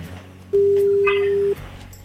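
A single ring of an outgoing telephone call: one steady, mid-pitched electronic tone holds for about a second and then stops, leaving a quiet background.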